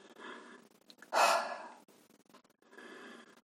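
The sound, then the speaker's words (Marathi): A breath drawn in through the nose, then a forceful, sighing exhale through the mouth that is loud and breathy, followed by softer breathing. “आता आपल्याला नाकाने श्वास घ्यायचा आहे आणि तोंडाने जोराने श्वास सुस्कारा टाकल्यासारखा बाहेर टाकायचा आहे श्वास घ्या”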